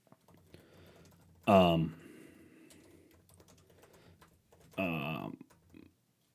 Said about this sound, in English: I'm trying to type this out.